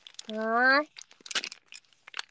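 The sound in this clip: Crinkling and tearing of a snack package being opened, a few sharp, irregular rustles following a brief voice at the start.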